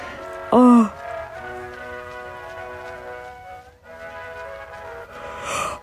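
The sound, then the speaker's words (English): A big, drawn-out human yawn opens with a brief strained vocal swell, then stretches into a long, steady moaning tone. It fades out and ends with a breathy exhale. “doing the really big yawns is really good, because it is a tiring time”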